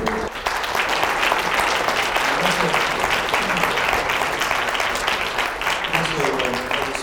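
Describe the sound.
An audience applauds to welcome a speaker, with steady, dense clapping that holds at an even level from start to finish.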